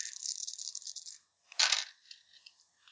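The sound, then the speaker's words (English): Six dice are shaken and rolled for a tabletop role-playing game: a light clattering rattle, a brief pause, then a sharp clatter as they land, trailing off in a few small clicks. “that's how many dice I'm rolling”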